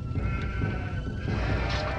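Sheep bleating at a desert tribal encampment, the calls blending into a dense, steady, loud background with no clear gaps.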